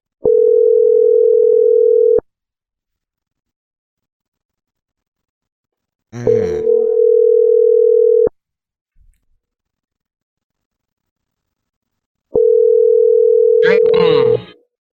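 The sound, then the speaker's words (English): Telephone ringing tone: a steady mid-pitched electronic tone sounds in three loud bursts of about two seconds each, separated by silent gaps, with a voice talking over the second and third bursts. “I hear a ringtone. Right, I hear a ringing, not a ringtone. I like to call this ringtone ringing.”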